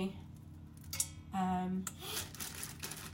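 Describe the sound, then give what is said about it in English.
Crinkling, rustling aluminium foil as chopped garlic is wrapped for a freezer bag, with a few bursts of crackle over a low, steady hum. “So I'll just put it in some foil and into”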